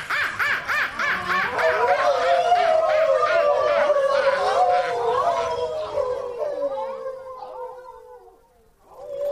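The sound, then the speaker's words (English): A pack of wolves howling and yipping together: rapid pulsing yelps ride over long wavering howls that gradually fade toward the end. “Wolves! A whole pack of them!”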